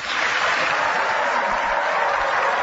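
Audience applause welcoming Governor Mike Pence and Senator Tim Kaine at a vice-presidential debate: dense, steady clapping from many hands, even and loud throughout.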